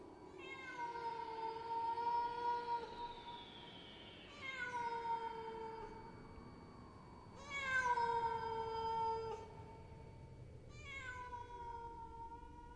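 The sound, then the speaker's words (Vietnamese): A stray cat yowls far off at night, letting out four long, drawn-out cries separated by short pauses. The cries are faint and wavering, and each one trails slightly downward. “phía xa xa trong đêm tiếng con mèo hoang kêu lên văng vẳng.”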